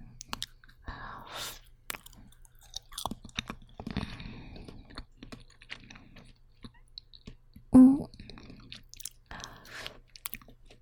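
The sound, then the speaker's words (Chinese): Chewing on a fatty grilled lamb skewer: many faint, wet, crunchy mouth clicks and bites in an irregular rhythm, with one brief louder burst near the end. “别光喝酒，这羊肉串冷了就不好吃了。我先来一个。”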